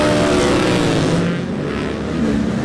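Lightweight racing motorcycles roar off at the start of a six-lap road race over 25.5 miles, a loud, steady engine snarl that dips briefly midway and then swells again.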